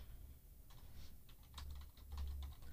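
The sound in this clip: Typing a name on a computer keyboard: many quick, faint key clicks in an irregular patter, alone with no talk.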